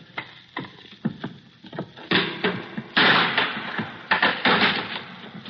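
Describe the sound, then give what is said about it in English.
A crowbar prying open a wooden crate makes an irregular series of sharp wooden knocks, cracks and creaky scrapes, which grow denser and louder toward the middle and continue in uneven bursts. “Okay, then I'll open one. Okay. Stay away from the crowbar. I'll pick it up myself.”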